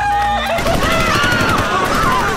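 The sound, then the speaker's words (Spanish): Rapid gunfire bursts from a school shooting on a lawn full of students, dense, loud and continuous, with high wavering tones running through the crackling volleys. “El primer tiroteo se produce en el césped del exterior, que está lleno de alumnos. Lanzan ráfagas.”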